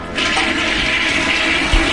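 A toilet flushing just after a countdown to the new year 1980, a loud, steady rush of water that holds through the whole clip, with a brief low thump near the end.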